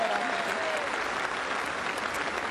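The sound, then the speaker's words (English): Faint applause from a crowd at an AFL parade presentation greeting the Premiership Cup ambassador: even, continuous clapping of many hands, soft and steady throughout. “Please, a round of applause for our Premiership Cup ambassador.”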